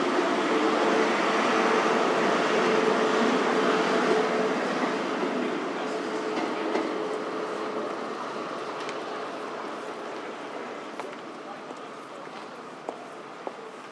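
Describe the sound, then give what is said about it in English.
Ambience of a busy, cramped train station platform: a steady broad rumble and crowd wash with scattered footsteps and faint clicks, easing slightly in loudness toward the end. “So the station's going to be very different in the future, and hopefully a bit more pleasant to use than it is at the moment. It's a bit busy and cramped at the moment.”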